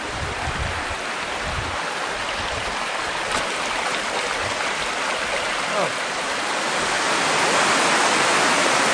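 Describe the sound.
Water flowing through a cave passage that is usually dry, a steady, full rushing hiss that carries on without a break and grows slightly louder toward the end.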